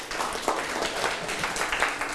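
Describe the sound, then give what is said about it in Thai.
Students in a classroom clap together for a classmate who has just answered correctly: a steady, dense patter of hands at moderate level, sustained throughout without any talk over it. “หมวดร่างกายถูกไหมถูกต้องปรบมือให้เพื่อน”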